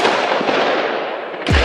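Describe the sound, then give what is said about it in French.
Bursts of gunfire and explosions during a dawn armed assault in Saint-Denis, north of Paris: a dense, continuous crackle of shots runs throughout, then a sharp, heavy blast lands near the end. “Des rafales de tirs, des explosions.”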